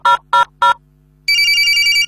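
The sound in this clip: A phone call to a radio station: three short, evenly spaced tones, then a pause, then a sustained warbling ring tone that continues to the end.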